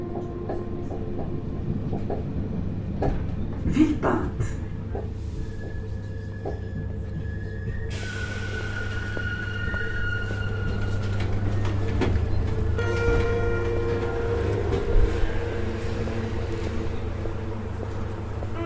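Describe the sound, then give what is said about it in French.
A train at a suburban railway station rumbles steadily with rattling, clattering wheel sounds and a few sharp metallic clanks throughout. “La gare de Villepinte se situe à 25 minutes à pied des habitations les plus proches”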